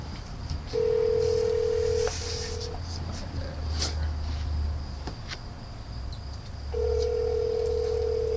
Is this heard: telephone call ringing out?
yes

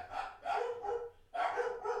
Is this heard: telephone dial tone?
no

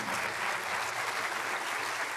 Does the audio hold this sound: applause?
yes

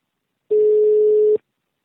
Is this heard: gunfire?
no

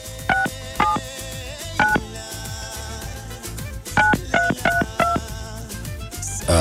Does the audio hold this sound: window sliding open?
no

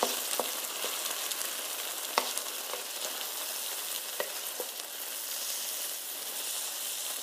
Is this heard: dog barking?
no

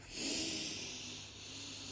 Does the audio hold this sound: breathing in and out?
yes

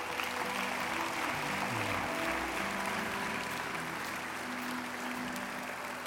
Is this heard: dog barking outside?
no

